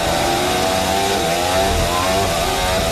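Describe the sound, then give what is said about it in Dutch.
A racing car's engine is loud as the car downshifts and then accelerates out of the Blanchimont corner. The engine note is a buzzing, high-revving howl whose pitch shifts and climbs, with no voices over it. “Terugschakelen uitkomen Blanchimont. En daarna gaan ze gewoon weer accelereren voor dat beetje power wat ze erbij gekregen hebben.”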